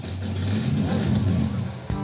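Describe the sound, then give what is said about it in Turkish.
A powerful car engine of about 700 horsepower runs with a steady, deep throaty rumble. The rumble carries strong low harmonics and swells slightly, then ends with a brief sharp knock. “İnanılmaz bir motor bu.”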